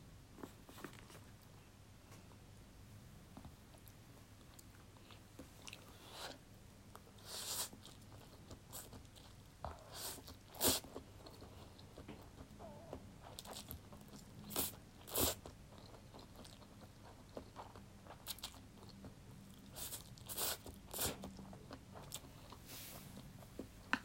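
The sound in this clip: Dry, uncooked noodles crunching as they are bitten and chewed, giving many small irregular crisp cracks and snaps at a quiet level, alone with no talk.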